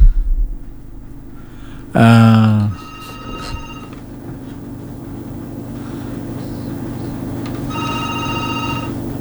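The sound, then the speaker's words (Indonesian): A telephone rings on a call-in line with electronic ringing tones. A short voice comes early, and a steady ring returns near the end over a low hum. “Oke, saya angkat penelpon berikutnya.”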